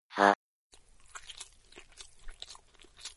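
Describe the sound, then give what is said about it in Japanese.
Chocolate being bitten and chewed gives irregular crunching and soft mastication sounds, preceded by a brief loud burst and a short pause. “チョコです。 チョコだと。 ということで食べます。”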